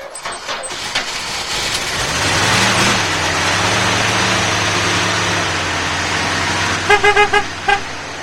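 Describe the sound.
An old telephone company van's engine cranks and catches, settling into a steady, rumbling idle, with a few short horn toots near the end.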